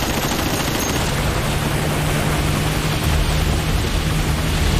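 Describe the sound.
Gunfire erupts on command as a sustained, dense roar of shots with a steady, harsh texture and no pauses.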